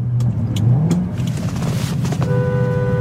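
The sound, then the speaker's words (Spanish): A car engine revs, its low drone climbing in pitch early on and then holding a steady, loud roar with no talk. “Mira cómo suena este motor, mira.”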